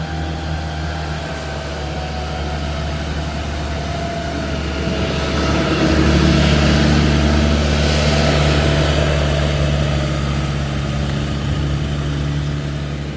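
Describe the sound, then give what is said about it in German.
A loud farm vehicle drives past, its engine a steady low droning hum with layered tones. The sound swells louder midway and eases slightly toward the end, with no voices. “ich habe jetzt gerade mal den fröhlichen Landwirt vorbeigelassen, der hier auf seinem landwirtschaftlichen Fahrzeug an mir vorbeigefahren ist und laut ist”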